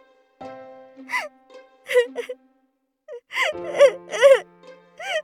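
Crying from someone upset after a manga they drew was rejected by a publisher: several short wavering whimpers and sobs, broken by quiet gaps, with the later bursts louder and more drawn out.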